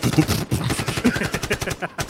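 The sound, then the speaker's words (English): Gunfire sound effect: rapid bursts of automatic shots rattle steadily for about two seconds in a fast, uneven stutter. “What sound effects was that? That was guns.”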